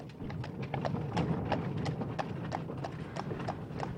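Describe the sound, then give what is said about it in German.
Hooves clip-clop at a steady, brisk rhythm as a horse-drawn carriage drives off, with many crisp hoof strikes over a low, continuous rumble. The whole scene sounds fairly faint. “Die Peitsche knallte, die Marchesa schwenkte das Taschentuch, die Kutsche fuhr davon.”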